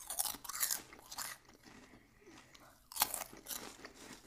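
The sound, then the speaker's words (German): Crunching and chewing of Sun Snack light potato chips: bursts of crisp, dry crackling bites, a quieter stretch of softer chewing, then another sharp crunch followed by more chewing, fairly faint and without talk. “dann jetzt zu meinen Lieblingschips von Sun Snack sind die Light Chips. Die kenne ich auch schon. Aber ich muss sie nochmal probieren.”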